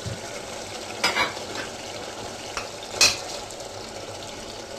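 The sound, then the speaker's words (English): Minced meat and softened aubergine with coriander leaves frying and being stirred in a pan: a continuous sizzle with a few louder scrapes and clatters of a utensil against the pan, and no talking. “As soon as the aubergine is slightly soft, we'll add the mince to it.”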